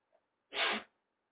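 A single sharp sneeze bursts out after a tiny intake of breath: one short, loud, breathy explosion followed by quiet.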